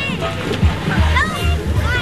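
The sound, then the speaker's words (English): Children and families splashing in cool water at a public pool during a summer heat wave. Continuous sloshing and splatter runs under lively kids' voices and chatter. “At Cordelia Pool this afternoon, kids and families were splashing in the cool water”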